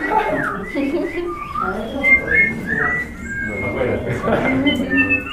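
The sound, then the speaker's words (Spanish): Whistling from several people during a training session for trainers, with bright wavering tones mixed with overlapping voices. Chatter continues throughout at a fairly steady level. “Miren que el silbido es lo más personal que hay.”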